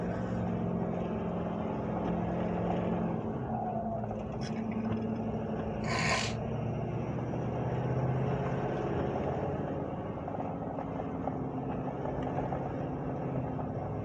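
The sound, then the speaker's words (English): A car driving on a road gives a steady, low rumble of engine and tyres that holds evenly throughout at a fairly faint level. “started driving again.”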